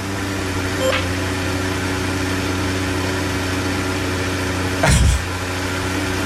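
A Formula One race car engine idles after the car is ordered to stop with failing engine braking. A steady low droning hum runs throughout, broken by two brief blips, the second louder.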